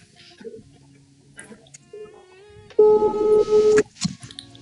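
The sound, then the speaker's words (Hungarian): A telephone call is dialed: a few short, quiet electronic tones, then a louder steady tone that holds for about a second before cutting off. “Hai să sunăm.”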